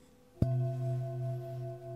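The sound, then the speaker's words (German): A pelvic singing bowl placed on a person's back gets a single strike, then hums steadily with a deep, full ring and bright upper overtones, sounding alone and barely fading over the short span. “So, jetzt kommt mal eine andere Schüssel. Die Beckenschüssel, die hört sich so an.”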